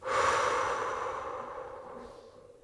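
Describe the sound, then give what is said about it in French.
A single long, deep breath from guided relaxation breathing, drawn in through the nose and blown out through the mouth with the belly filling. It is soft and airy, swelling early and then slowly fading, with no talk. “Inspire par le nez. Fais rentrer l'air et le calme dans ton corps. Gonfle ton ventre et souffle l'air par la bouche.”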